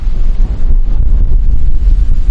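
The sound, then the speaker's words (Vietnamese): Strong wind buffets a microphone outdoors in the countryside, a steady, loud, low roar that rumbles on without a break and without any talk. “Có thể là mình không biết là bây giờ cái tiếng gió nó có làm ác tiếng nói của mình hay không ha. Tại vì hiện tại bây giờ ở đây gió là khá là lớn.”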